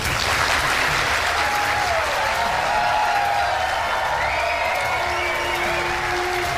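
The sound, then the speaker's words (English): A standing ovation for Donald Trump at a Republican primary town hall, with dense, continuous applause at a loud, even level throughout and faint cheering woven through the clapping. “He's getting a standing O before he even sits down in a Republican primary town hall event.”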